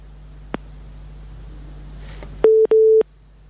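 Two short, loud telephone line tone beeps mark a dropped phone call, the second beep slightly longer than the first. Each is a steady mid-pitched tone, preceded by a single faint click over a low hum.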